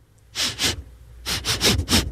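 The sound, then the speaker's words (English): A person sniffing in short, sharp, breathy bursts: a pair, then a pause, then a quicker run of several more. The sniffs are fairly loud and heard alone. “Somebody sniffing my hair?”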